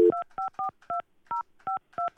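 Telephone keypad dialing tones sound as a quick, evenly paced series of short two-note beeps, each clipped and separated by brief silences, heard alone without talk.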